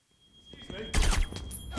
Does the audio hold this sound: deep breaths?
no